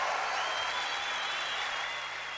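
Audience applause at a music show as a singer is invited on stage, a steady, even patter of clapping sustained throughout.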